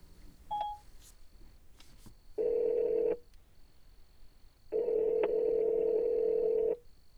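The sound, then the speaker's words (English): A phone call being placed: a single short dialing beep, then two long, steady ringback tones separated by a pause, with no voices. “Call Kim.”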